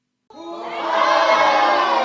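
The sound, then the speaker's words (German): A crowd cheers and shouts a welcome during a theatre rehearsal on the Fraueninsel in the Chiemsee. The cheering starts abruptly after a moment of silence and swells into a loud, sustained roar. “Mit großem Jubel wird Irmengard auf der Fraueninsel empfangen.”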